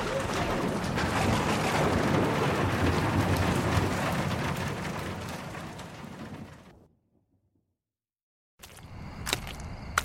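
Heavy rain from a thunderstorm makes a dense, steady, loud roar that fades out after about seven seconds. A stretch of near silence follows, and then a different sound starts with a few sharp clicks.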